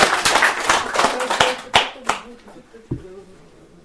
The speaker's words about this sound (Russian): Вот, это шествие Александры Николаевны Прыгель по России, которое благодаря Андрею Трубецкому состоялось, поэтому ему отдельные аплодисменты.